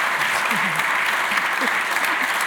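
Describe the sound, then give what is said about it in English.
Audience applause, a dense steady wash of clapping from a dinner event crowd, holding even and fairly loud for the whole stretch with faint voices underneath. “And I want to please a round of applause.”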